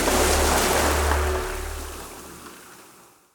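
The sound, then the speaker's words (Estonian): Ocean waves breaking as surf, a loud, steady rushing wash with a deep low rumble, gradually fading away toward the end. “sellise lainetuse”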